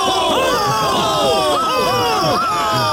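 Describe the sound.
Crowd cheering at a fools' procession: many overlapping voices whooping and hollering, their shouts swooping up and down in pitch, forming a loud, continuous jubilant clamour.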